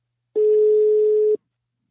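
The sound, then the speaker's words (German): An outgoing telephone call gives a single steady ringing tone, a pure mid-pitched beep lasting about one second, loud and alone. “Und genau deshalb habe ich Sexualtherapeutin Heike Melzer angerufen.”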